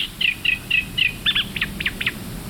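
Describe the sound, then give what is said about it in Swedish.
A reed warbler sings from the reeds at Lake Tåkern: a brisk, evenly spaced series of clear, high chirped notes, the later ones split into paired notes, over a faint low background murmur. “För i Tåkerns vassar så har vi ju så många rörsångare, men här sitter det en. Och det är lite kul att höra den.”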